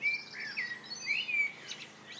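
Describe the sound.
Blackbird song: a few fluty, whistled phrases with quick slurred notes, fairly faint and unaccompanied by any voices.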